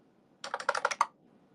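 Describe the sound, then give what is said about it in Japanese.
Keystrokes on a computer keyboard as someone types on a PC: a quick burst of several clicky taps in an uneven rhythm, fairly faint and alone. “僕パソコン遅い。タイピング遅すぎる。”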